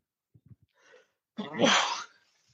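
A single loud, explosive sneeze: a broad hissing burst lasting under a second, preceded by a few faint, short breathy sounds.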